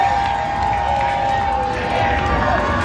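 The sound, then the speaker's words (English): A stadium crowd at BC Place roars and cheers after Canada's sixth goal at the FIFA World Cup. The noise is a steady, dense wash of many voices that holds at a constant level throughout. “That sound you hear is the crowd reacting to Canada's sixth goal.”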